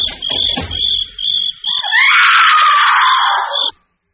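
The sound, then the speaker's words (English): A woman screams in a long, shrill, high-pitched cry that holds steady for about two seconds and then cuts off abruptly into silence. Short bursts of lower noise and a thin steady whine come before it. “Sounds like a woman screaming.”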